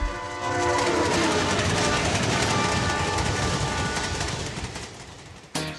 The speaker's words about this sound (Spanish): ¿Nos vamos? ¿Está el tren ahí? Sí, ya subimos.